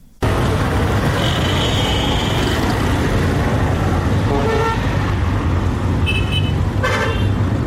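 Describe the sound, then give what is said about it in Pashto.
Traffic and car horns at a large passenger bus station in Quetta: a constant, loud road rumble runs throughout, with several horn toots rising above it. “دا په کوټه کې د مسافرونکو بسونو یو لوی اډه ده”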